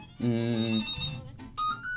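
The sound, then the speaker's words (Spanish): A telephone rings with an incoming call on a radio program. Short, bright electronic ring tones sound alone at moderate loudness. “Mira, ya han llamado. A ver si ahora entra el teléfono.”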